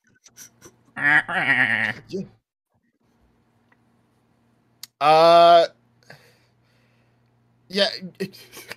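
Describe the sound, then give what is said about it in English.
Three drawn-out, wavering goat-like bleats with a nasal, quavering tone, separated by stretches of quiet and a faint click or two. “I assume the goats aren't actually talking to me.”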